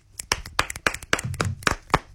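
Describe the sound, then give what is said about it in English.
Scattered handclaps from a small audience on a chat show come as many sharp, irregular, uneven claps rather than a steady roll, with a brief low murmur of voices partway through. “Oh, we're clapping. I thought it was more of a click thing.”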